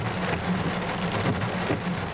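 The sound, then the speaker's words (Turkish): A heavy downpour of rain falls during a flash-flooding storm in Hatay, Antakya. The hiss of dense drops is steady and loud throughout, with no voices. “Bardaktan boşalırcasına yağdı. Yollar su altında kaldı.”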